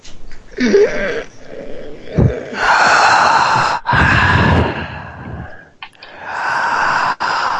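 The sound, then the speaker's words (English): A person takes deep breaths, a few long, loud, airy draws of breath with short pauses between them, heard alone without speech. “I'd like you to breathe deep. Can you inhale again?”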